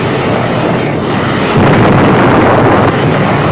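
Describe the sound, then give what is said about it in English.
Naval fleet bombardment of Okinawa in a 1945 newsreel, heard as a dense, continuous, loud rumbling roar with no distinct separate blasts. “Lieutenant General Buckner and Vice Admiral Turner observed the 5th Fleet's terrific bombardment of Okinawa.”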